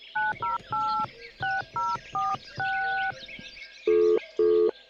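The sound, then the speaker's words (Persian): A telephone being dialed to place a call: a quick run of touch-tone keypad beeps, one held longer, followed by two lower, buzzing tones. “تو باش ما با کمال زنگ بزنم که کلینیک بره.”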